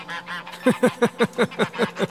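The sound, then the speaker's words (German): Geese honk and scream in a rapid, regular series of loud, harsh calls, preceded by softer, fainter honking at the start. “Die Gänse tun nichts, die schreien nur. Bei Menschen schreien sie besonders laut.”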